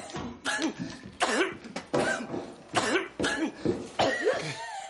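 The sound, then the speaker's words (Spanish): A man coughs in repeated harsh, choking fits at home, a series of strained bursts with throaty, rasping voicing between them. “tose con ahogo”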